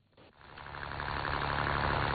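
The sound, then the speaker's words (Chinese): A fishing boat motor starts up in the Yazhou central fishing harbour in Sanya, rising within a second from quiet into a steady, low, throbbing rumble. “早上7点，暖阳西洒，海面波光粼粼，三亚崖州中心渔港内马达声响起，陈真年一早就乘船向7海里外的深水网箱养殖基地驶去。”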